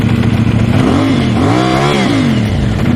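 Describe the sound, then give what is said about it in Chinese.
The loud exhaust of a vehicle with an illegally modified, non-factory exhaust system roars steadily as the engine is revved. The pitch swells up and falls back in rev surges, with no voices. “大家可以听到它这个排气的声音是非常的大。这种车辆在行驶在路上的时候，只要你轻微的一给油、一提速，”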